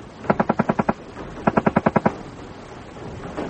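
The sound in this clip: A British Mark II Sten submachine gun firing two rapid bursts of about seven sharp, evenly spaced shots each, with a short pause between them.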